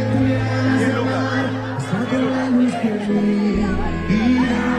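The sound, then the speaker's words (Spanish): Live show audience cheering and shouting in a continuous wash of crowd noise, with voices rising above the general hubbub. “Además, escucha el público.”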